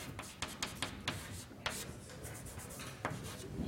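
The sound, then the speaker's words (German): Chalk scratching on a blackboard as results are written up in a classroom lesson, many short, quiet rubbing strokes in an uneven rhythm, with no talk. “Damit ich die obere Tafel einfach wegwischen kann, schreiben wir uns jetzt mal zur Ergebnissicherung die zwei Ergebnisse haben, die wir bisher haben.”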